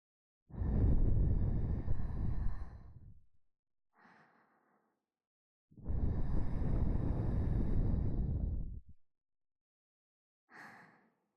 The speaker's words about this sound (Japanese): ふわふわの後は息をふーっと吹きかけるんですよね。では、行きます。